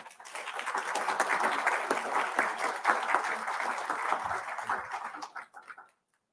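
An audience applauds to welcome a lecturer: dense, even clapping from many hands holds steady for about five seconds, then tapers off and stops.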